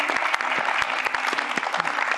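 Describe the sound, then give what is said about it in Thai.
Audience applause welcoming a guest onto a talk show: dense, steady clapping from many hands that stays loud and even for the whole brief moment, with no voices standing out above it. “ขอเสียงปรบมือต้อนรับคุณไส้หลินหวังครับ”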